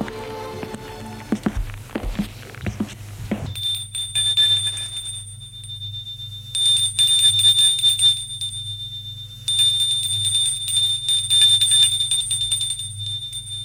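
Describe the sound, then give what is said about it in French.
A doorbell rings at a house: a high, piercing electric ring sounds in long sustained stretches over a low steady hum, with some brief knocking thumps before it starts. “Le lendemain, Galien revient sonner chez Guillaume.”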